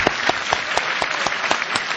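Applause from a crowd, dense overlapping clapping at a steady moderate loudness, with a few sharper, regularly spaced claps standing out against the continuous patter throughout.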